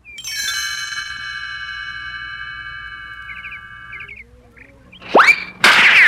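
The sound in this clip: A baseball bat hits a ball in a Peanuts cartoon: a sharp whack rings out after sustained ringing tonal notes and chirps, followed by a second loud, noisy burst.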